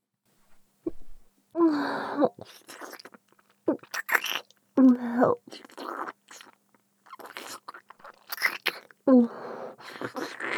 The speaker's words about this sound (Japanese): 私、お腹すきましたわ。味見させていただきます。